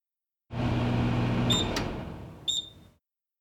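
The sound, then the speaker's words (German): Microwave oven signal tone: a couple of short, high, clear beeps over a broad, steady humming rush that stops soon after the last beep. “Signalton, zum Beispiel von einer Mikrowelle.”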